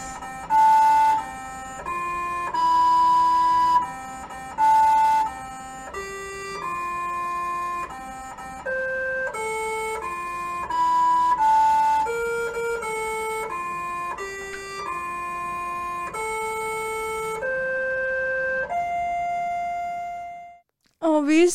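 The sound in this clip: A Mars rover plays the birthday song melody to itself on the anniversary of its landing. It sounds like a slow run of buzzing electronic tones stepping up and down in pitch, ending with a short rising whistle.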